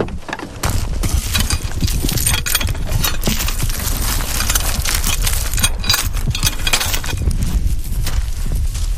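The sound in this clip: An anchor chain rattles out as a boat's anchor is dropped, a loud, dense, continuous metallic clatter that starts after a brief quiet moment and runs steadily for about eight seconds.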